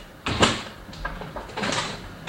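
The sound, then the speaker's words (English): A door slams hard with a sudden loud bang, followed by a few fainter rattling knocks as it settles. “You just did that when you slammed the door.”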